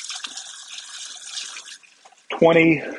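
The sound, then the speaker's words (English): Running tap water splashes as a cook rinses their hands at a kitchen sink, a steady hiss lasting under two seconds, then a brief pause and a short voice. “Let me rinse my hands off.”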